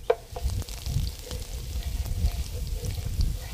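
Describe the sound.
Dried chili peppers toast in a pan stirred with a wooden spoon, giving a faint, continuous low sizzle scattered with small ticks.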